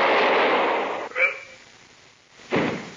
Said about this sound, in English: I'll shoot if you don't.